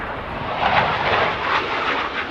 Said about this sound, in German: Es wird laut in Manching und das, bevor der erste Redner auf dem Werksgelände von Airbus ans Mikrofon tritt. Ein Eurofighter donnert im Tiefflug über die rund 3000 Mitarbeiterinnen und Mitarbeiter,